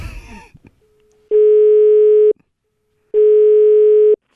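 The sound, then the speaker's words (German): Telephone ringing tone on an outgoing call: two long, steady, evenly pitched tones of about a second each, separated by a short pause and heard alone, after a brief burst of noisy rustling at the start. “Aber heute geht's nicht anders. Wir müssen anrufen.”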